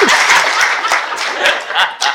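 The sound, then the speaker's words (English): Audience giving a round of applause at a church talk, a loud, dense burst of clapping hands that stays strong throughout with a few sharper claps rising above it. “Yeah, give him a round of applause.”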